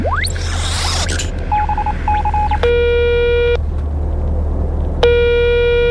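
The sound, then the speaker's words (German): Electronic telephone tones for placing a call: short clipped beeps, then two long buzzing ring tones separated by a pause, all over a steady low hum. “X-Funker, bitte parallel zu Yvonne einmal Ava anrufen von der Erde.”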